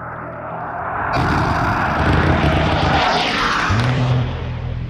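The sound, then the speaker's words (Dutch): An F-16 fighter jet flies low past buildings. Its loud roaring rush surges in abruptly and holds, with a sweeping tone as it passes, then eases slightly near the end. “De F-16 vliegt vlak langs de gebouwen en vuurt in de grond.”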